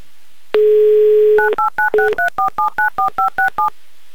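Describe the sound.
Telephone dialing tones as radio hosts call Magnitogorsk: a steady dial tone runs for about a second, then a rapid, evenly spaced series of many short two-pitch keypad beeps, clear and loud with no voices.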